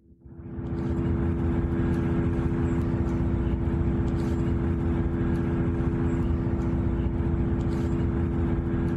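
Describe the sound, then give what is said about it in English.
Data center noise recorded near a house in southern New Jersey: a loud, steady droning hum with tonal whine swells in within the first second, then holds constant and unbroken. “So that's the sound of a data center.”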